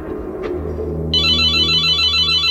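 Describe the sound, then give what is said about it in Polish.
An intercom rings: a steady, high electronic ringing starts about a second in and runs to the end, loud over a low background hum. “Dzwoni domofon.”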